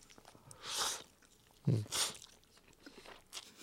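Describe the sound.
Crunchy biting and chewing of a ready-made, spice-coated food: a few short, crisp bursts spaced apart, with no talk.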